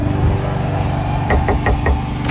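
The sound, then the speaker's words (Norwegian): Four quick knocks on a door land in an even, brisk rhythm, sharp and moderately loud over a steady low hum. “Og denne veka så kunne jeg banke på, jo, superstrikkementor Siv”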